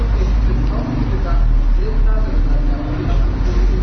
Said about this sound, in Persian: صدای شما مفهوم نیست این ماشین نمیذارد یه کمی بلندتر